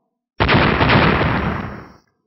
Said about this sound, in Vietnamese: Bên trên đại thủ, điện mang màu bạc chợt hiện, rồi mãnh liệt nổ tung, hóa thành vô số điện mang màu bạc quét ra bốn phương tám hướng